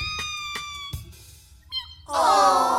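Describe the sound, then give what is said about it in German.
A small, distressed kitten meows pitifully. After a quieter stretch of soft tones and taps, a loud, drawn-out, wavering meow arrives at the end. “Das Kätzchen schien noch sehr klein zu sein. Es hatte große Augen und miaute kläglich, während es sich verzweifelt am Steuer des Spielzeugbootes festklammerte.”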